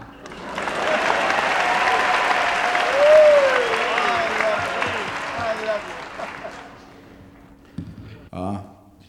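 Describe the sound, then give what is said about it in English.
Audience applause welcoming a performer at a talent-spotting show: loud clapping that swells, peaks, then fades away, followed by a few brief, unclear sounds. “please put your hands together for a very big warm welcome”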